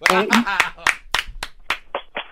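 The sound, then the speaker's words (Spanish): A man claps his hands in praise. A short spoken exclamation leads into several sharp, evenly spaced claps that stand alone and fade slightly toward the end. “maestro, maestro! maestro! le doy sus palmadas.”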